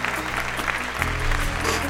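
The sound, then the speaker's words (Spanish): Dense, sustained applause, a steady wash of clapping that holds at an even loudness for about two seconds. “ahí el aplauso para... Qué grande, un aplauso muy fuerte para ellos.”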